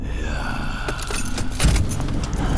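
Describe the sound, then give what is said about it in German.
Car keys jangle as they are handed over from a car's passenger seat, with several bright metallic rattles in quick bursts over a low, steady rumble. “Der Zwerg schob sich auf den Beifahrersitz und reichte Chuck die Autoschlüssel.”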